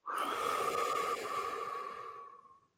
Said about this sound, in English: Take a deep breath in and hold. One, two, three, four. Now let it out.